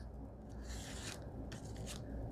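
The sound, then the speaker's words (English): Faint dry scraping as an old plastic gift card is rubbed over a design, in a few rough, gritty passes of friction with no voices. “I'm just using an old, like a gift card, like fake credit card, something like that. I'm holding it. I'm not taping this in place, but I'm just going to run over the design.”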